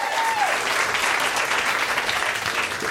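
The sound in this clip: An audience applauds to welcome a reader onto the stage at a live reading event, dense continuous clapping that stays loud and even throughout.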